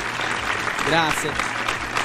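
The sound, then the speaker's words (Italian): An audience applauds in a dense, even wash of clapping that holds steady for the whole clip, with a voice briefly heard over it. “Applauso per Amanda.”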